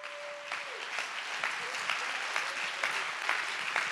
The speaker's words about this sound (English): Clap your hands and give him praise.